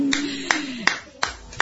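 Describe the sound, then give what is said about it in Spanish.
Applause and ovation: about five sharp, evenly spaced hand claps ring out, with a voice faintly beneath them. “Vamos, Diego. Aplausos y ovaciones.”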